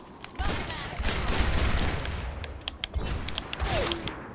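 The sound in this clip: Dense gunfire and dynamite explosions in a hero shooter video game, from a character who throws dynamite and shoots it in midair: a constant loud clatter of sharp shots and blasts with short spikes throughout.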